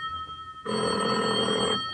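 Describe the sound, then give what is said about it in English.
A telephone bell rings in one loud, sustained burst lasting about a second, following a quiet stretch of hiss; a second ring starts just as the sound cuts off. “there's a phone call to suggest that your hunch might be right.”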